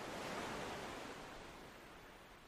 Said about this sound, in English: The tide is slowly coming in.